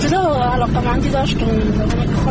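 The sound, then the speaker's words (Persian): A woman drives a car along the road leading to her village, and steady road and engine noise runs beneath continuous talking inside the vehicle. “او در جاده‌ای که بر روستایشان می انجامد رانندگی میکند و همزمان با ما گپ میزند”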